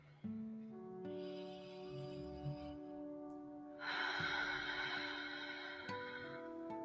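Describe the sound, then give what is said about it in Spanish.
A slow, deep human breath taken as part of a guided breathing exercise: a long, soft, airy rush of air that grows noticeably louder and fuller for its last few seconds, set over steady, sustained musical tones with no talking. “Voy a respirar profundo. Si usted quiere, puede respirar conmigo. Lo voy a hacer nuevamente.”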